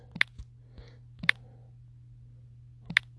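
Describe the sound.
A few sharp, isolated clicks of typing on a keyboard, spaced irregularly over a faint steady hum, with no talking.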